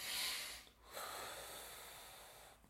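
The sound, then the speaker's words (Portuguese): A deep breath: two faint, airy breath sounds, a short one followed by a longer one that slowly fades, with no speech. “Vamos respirar fundo.”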